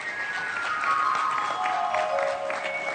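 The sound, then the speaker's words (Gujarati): Applause at a religious gathering as a group of monks arrives during a knowledge yajna: many hands clap steadily and densely, with sustained tonal notes ringing over the clapping. “તાળી પાડો, પરમહંસ મંડળ આવ્યું.”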